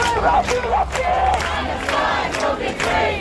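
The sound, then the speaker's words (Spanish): Protest crowd in London, many voices chanting and shouting together in loud, rhythmic bursts that rise and dip without a break. “Hay manifestaciones también en ciudades europeas más allá de España. Esto que escuchan es Berlín, protesta frente al Ministerio de Exteriores alemán. Así suena Londres ahora mismo.”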